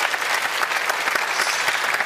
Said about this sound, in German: Donnernder Applaus für dich nochmal, bitte.